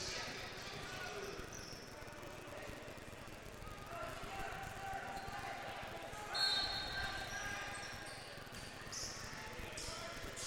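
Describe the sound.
Basketball dribbling on a gym floor during a boys' high school basketball game, many quick rhythmic bounces sounding faintly amid a busy, noisy background.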